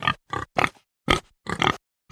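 Pig grunting: a rapid series of harsh, raspy grunts in short bursts with brief gaps between them, loud and heard alone.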